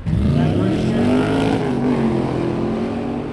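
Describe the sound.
Engine roar from a 1965 Cobra and a 1972 Chevy Corvette drag racing on an eighth-mile track at a Friday night event, a loud, steady, throaty drone that holds throughout with a slight easing toward the end.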